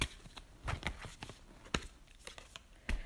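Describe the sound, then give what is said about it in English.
An advice card is pulled from a deck, producing a few faint, papery snaps and rustles scattered irregularly over a quiet background. “All right, I'm going to pull an advice card for you.”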